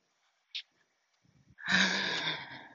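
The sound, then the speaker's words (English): A deep, calming breath: a brief, sharp sniff, then a faint pause and a long, loud, breathy exhale like a sigh that fills the rest of the moment, heard on its own. “deep breath, settle yourself.”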